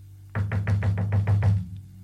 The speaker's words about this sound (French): Puis, il toqua à la porte. Une fois.